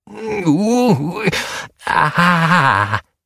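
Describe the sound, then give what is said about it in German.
A human voice performs a troll's terrible moan in a cave: two long, loud, wavering groans split by a brief pause, the first swooping up and down in pitch, the second lower and more drawn out. “Da tauchte der Schatten des Trolls wieder auf, und es hallte ein furchtbares Stöhnen durch die Höhle.”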